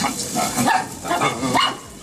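Dogs bark in a played recording of a man with his dogs, a few short, rough woofs coming in quick succession.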